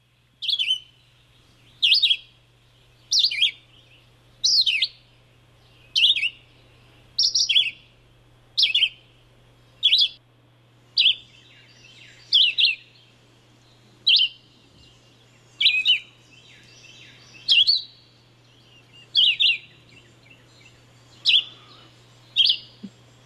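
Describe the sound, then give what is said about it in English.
A red-eyed vireo sings many short, high, separate phrases at a steady, unhurried pace, each a quick slurred burst followed by a brief pause, over a faint, constant low hum. “And the thing I remember about red-eyed vireos, Harry, is that they seem to sing long after all the other birds have quit.”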